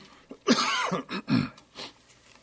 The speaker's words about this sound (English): is a nagging cough. I know all of you have had it, a little tickle in the throat, and it's with me tonight.